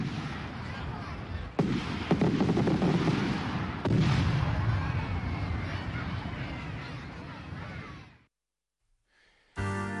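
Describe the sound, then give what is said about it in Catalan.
Final string of firecrackers bursting: a dense, loud run of rapid cracks and bangs with a few sharper heavy reports, continuous for about eight seconds before cutting off abruptly. “La traca final.”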